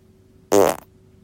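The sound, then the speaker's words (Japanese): A single short fart, a buzzy, tonal blast with clear harmonic ridges, loud against a quiet background and lasting about a third of a second. “それではおなら出していきます。”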